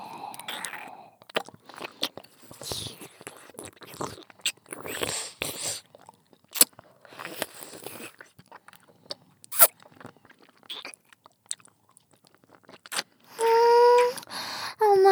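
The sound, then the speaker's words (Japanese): Candy is crunched and chewed close up in many crisp, irregular cracks and wet mouth clicks of varying loudness, with a short voiced sound near the end. “食べるのって幸せ。お兄さん食べたい？うちらの唾液たっぷりついたキャンディ”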